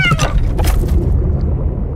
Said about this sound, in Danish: Ja, det var en kat. En smuk sort kat.